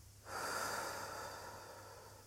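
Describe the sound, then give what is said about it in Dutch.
A single deep breath: one long, airy rush of air that swells quickly, then holds steady and slowly eases off to the end, with no talking. “Haal diep adem.”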